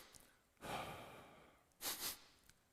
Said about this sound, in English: the fastest way to lower your heart rate and therefore lower the amount of fight or flight chemicals in your body is to take two quick breaths in and then exhale. So you go,